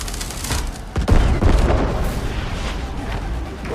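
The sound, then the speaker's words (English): A plane explodes and burning debris falls in a film action scene: a sudden heavy boom about a second in, followed by a dense, sustained roar of rumbling, crackling noise. “The plane explodes and burning debris falls around Torres”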